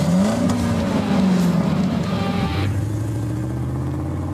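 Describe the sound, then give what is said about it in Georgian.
A 1980s Porsche 924 sports car engine drones loudly with a rising, slightly wavering tone. Partway through, the pitch drops abruptly and settles into a lower, steady hum. “ეს მანქანა 80-იანი წლების ნამდვილი ლეგენდა. Porsche 924.”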